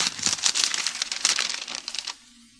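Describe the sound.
Paper crinkles and rustles as a letter is opened, a dense stretch of crisp, uneven handling noise lasting about two seconds before it stops abruptly and leaves near-quiet.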